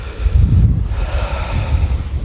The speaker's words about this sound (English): Oh, it is actually quite chilly, quite windy up